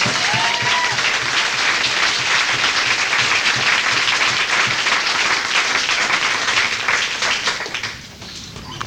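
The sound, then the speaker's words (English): A meeting audience gives a big round of applause to welcome a speaker, with loud, dense clapping that holds steady and then fades away near the end. “So I would like to welcome, in a big round, for Dr. Paul.”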